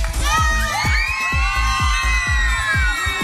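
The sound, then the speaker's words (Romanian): Crowd cheering and shouting to applaud a Radio Zoo team in Baia Mare: high whoops and yells over steady, rhythmic low thumps that repeat many times at an even beat, loud throughout. “Aș vrea să aplaudați toată echipa Radio Zoo și să țipuriți.”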